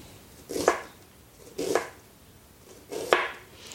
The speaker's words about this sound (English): And now I'm making some incisions straight down to the cutting board in sort of a fan shape on the front half of this onion. And then I go back and I just cut straight down.